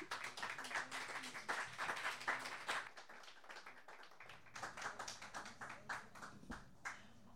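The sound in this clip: Audience applause welcoming a songwriter and poet to the stage at a small live performance, a soft, steady patter of many hands clapping that continues throughout.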